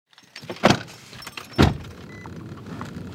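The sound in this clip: A car travels the back roads of wine country at night, heard from inside as a low, steady road hum broken by two heavy, prominent thumps about a second apart.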